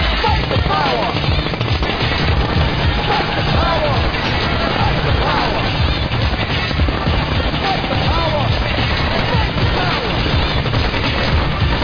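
Rifle shots fired in rapid, continuous succession, many sharp reports packed into a dense, unbroken stream of gunfire that holds a steady loudness throughout.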